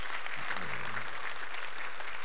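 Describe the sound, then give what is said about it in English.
Audience applause, a steady, fairly quiet wash of clapping that fills the whole short clip without a break. “that's worth some cheap applause there”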